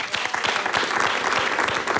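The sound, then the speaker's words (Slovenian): A crowd applauds a folk music ensemble with dense, sustained clapping. Individual sharp claps stand out within a steady, loud wash that holds its level from start to finish. “Za konec pa, ko so to za heci in ansambel, aplavz.”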